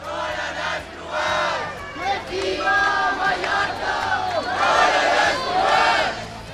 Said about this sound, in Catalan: I aquest que sentiu és l'ambient que hi havia aquest diumenge hora baixa al centre de Palma durant la manifestació contra la massificació turística i sota el lema Mallorca al límit.